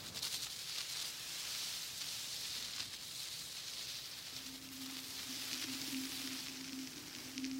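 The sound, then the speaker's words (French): Sand pouring into various containers, recorded with small microphones and mixed: a steady granular hiss runs throughout, and a low sustained tone joins partway and holds to the end. “Alors avec ses petits micros, il enregistre le son du sable qui coule dans des récipients divers. Il échantillonne, il mélange, il remue et il joue avec.”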